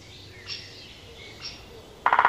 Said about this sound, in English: A loud chick call tells you straight away that a great spotted woodpecker is about.